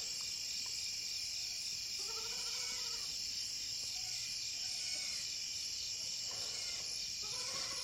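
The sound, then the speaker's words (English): Crickets and a few cicadas chirp at night in a steady, shrill, high-pitched chorus that runs throughout, faint overall, with a few soft animal bleats rising briefly above it. “What are the sounds you hear? Maybe it's... Crickets. Maybe it's... I think there's a few cicadas I hear.”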